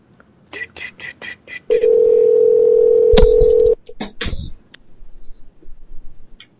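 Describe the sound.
Quick touch-tone dialing beeps on a telephone, a rapid run of short tones, followed by a long steady tone lasting about two seconds, then a few clicks and brief beeps before quiet.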